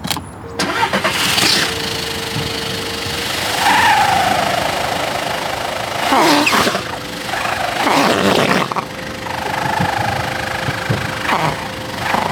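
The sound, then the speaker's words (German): A car engine revs through its exhaust, a steady rumble broken by a few loud, rough bursts of throttle. “Der Auspuff ist vielleicht auch zu dreckig. Dass man einen im Endeffekt mit wenig Gas viel Sound hat, wer weiß.”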